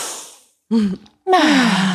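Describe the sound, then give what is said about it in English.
Deep breaths taken together by a group: a breathy hiss fades out, then two short voiced, sighing breaths with falling pitch follow after a brief silence. “deep breath, I know, yeah. Right? A collective inhale.”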